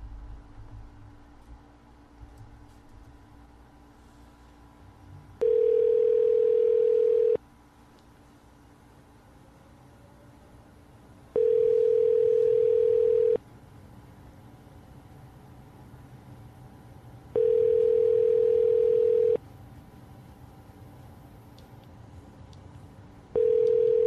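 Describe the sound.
An outgoing phone call rings out with a steady ringback tone: four evenly spaced tones of about two seconds each sound over low background hum, and the last one is cut short.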